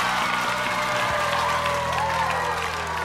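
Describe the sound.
Audience applause welcoming a guest onto a stage, a steady wash of clapping that runs throughout, with low pulsing tones beneath it during the first second.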